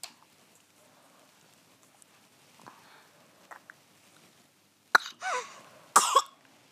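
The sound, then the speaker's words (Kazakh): Dry coughing: two loud, harsh bursts about a second apart, coming after several seconds of near quiet broken only by faint rustles and small clicks. “Осылай ма? Осылай жөтеледі ма? И қанша рет жөтеледі? Аса қатты көп емес. Осылай арасында жөтеледі. Осылай сухой қашыл бар екен.”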